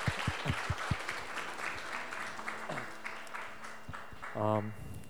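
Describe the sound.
Applause from a church audience for a pastor: many hands clapping steadily, with voices speaking over it and a short cheer near the end.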